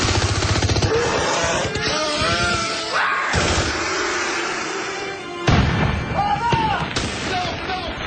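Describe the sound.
Gunfire sound effects in a radio drama battle against giant alien insects form a dense, loud, continuous barrage of cracks and booms, with a voice speaking over them.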